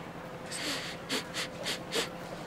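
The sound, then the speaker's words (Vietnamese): A man sniffing the air while puzzling over a strange smell from a pot of crab noodle soup: several short, breathy sniffs in quick succession, soft and airy, the last few evenly spaced. “hít hít cái mũi, mặt nhăn như khỉ ăn ớt”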